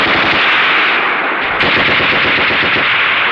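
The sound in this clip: Loud, sustained machine gun fire in a battle scene, rapid dense bursts that run almost without pause as a harsh, continuous rattle from start to end.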